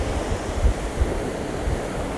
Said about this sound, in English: That noise you hear in the background is the waves crashing against the sand.